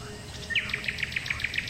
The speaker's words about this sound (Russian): Что это? Соловей. Соловей.